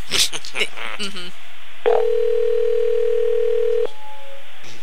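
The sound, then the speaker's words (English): A telephone dial tone heard while calling someone. A steady, unbroken hum holds for about two seconds, following a brief stretch of voices and handling noise, and cuts off sharply at the end. “Get her on the phone. All right, dial it up and talk to her.”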